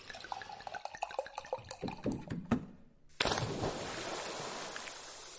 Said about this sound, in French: Et puis, je m'en verse un petit peu dans le verre.